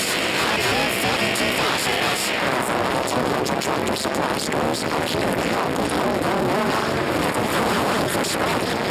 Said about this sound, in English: So this is all three of those ring modulators working together